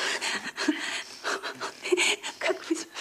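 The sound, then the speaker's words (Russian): Heavy, rapid panting from a man embracing and passionately kissing a woman's neck in a film scene: many breathy, rhythmic huffs in an uneven, fast cadence, moderately loud and close. “Как вы смешно дышите.”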